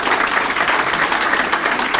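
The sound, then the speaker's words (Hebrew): Applause from an audience honouring a religious young man: a dense, steady wash of many hands clapping, even in loudness from start to finish, with no single voice standing out. “מחיאות כפיים לצדיק שלנו.”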